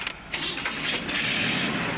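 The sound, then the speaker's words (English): A car engine kicks in after a brief moment and settles into a steady, rough running hum that holds for the rest of the moment. “I'd like to get out of here. As soon as I start the car.”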